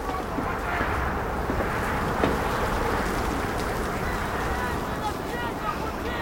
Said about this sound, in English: The wind ruffles Anna's furs as a wheel tapper moves along the side of the train.